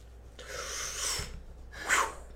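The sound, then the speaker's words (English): A person takes a quick breath while pausing mid-speech: a longer soft airy rush followed by a shorter, sharper intake. Both are fairly faint and there is no talk. “I'm going to take a quick breath here.”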